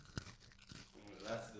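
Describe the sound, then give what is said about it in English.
Crunchy chewing of an Oreo cookie: two sharp bites stand out early, followed by softer mouth noises as a voice begins talking over them, all fairly faint. “It sounds like you're walking in snow or something. Oh no, there's the chewing.”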